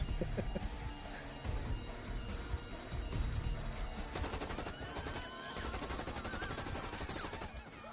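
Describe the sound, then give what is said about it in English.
Sustained automatic gunfire from Uwe Boll's film Rampage, where a heavily armored shooter fires on a street. Dense, loud bursts of rapid shots run continuously, mixed with crackling impacts and a background of other film sounds. “At this point, shouldn't these people not be on the street anymore? I mean, he's been shooting long enough now.”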